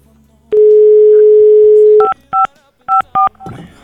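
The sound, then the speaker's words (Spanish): A telephone is redialed during a radio call-in. A steady single-pitch dial tone lasts about a second and a half, then four short keypad beeps follow in two quick pairs. “A ver, vamos a volver a marcar”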